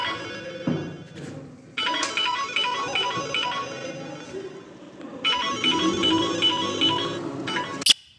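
A telephone rings while a call to the police is placed: two long ringing stretches separated by a pause, steady and moderately loud, ending with a sharp click.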